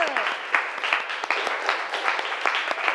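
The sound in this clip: Students applaud in a classroom with dense, steady clapping. Sharp individual claps stand out throughout, and the level stays fairly even from start to finish.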